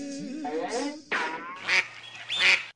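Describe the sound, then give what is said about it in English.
Duck quacking sound effect: a run of several nasal, honking quacks in quick, uneven bursts, with brief gaps between calls and the last ones louder and brighter. “I like that duck. I do. That's a favorite duck of mine. That's a ducky duck duck.”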